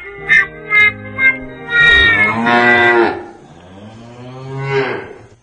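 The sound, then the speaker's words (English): A cow mooing sound effect in a comedy bit: a few short clipped calls, then a long, low, strongly harmonic moo and a second, softer drawn-out moo. “You were supposed to play the cow first, then the horn.”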